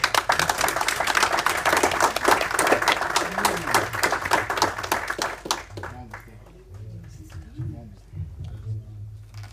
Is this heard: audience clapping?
yes

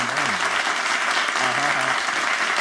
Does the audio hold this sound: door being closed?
no

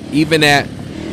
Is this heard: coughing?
no

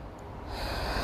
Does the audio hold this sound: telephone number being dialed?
no

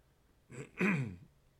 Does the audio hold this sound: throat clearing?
yes

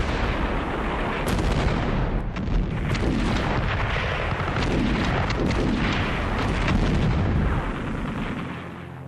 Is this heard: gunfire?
yes

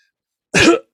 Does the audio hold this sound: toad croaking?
no

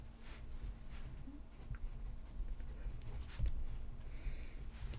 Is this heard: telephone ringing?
no

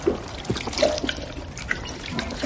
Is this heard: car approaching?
no

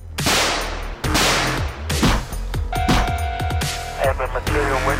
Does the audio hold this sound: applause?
no

